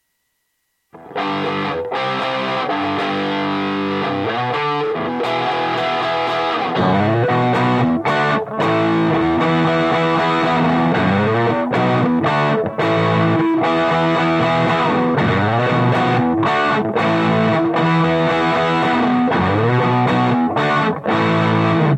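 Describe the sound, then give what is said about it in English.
An electric guitar played through a boost effect, picked up by two microphones mixed together. Loud, overdriven chords and riffs ring continuously with a gritty, distorted edge. “And I'm going to go to a boost sound.”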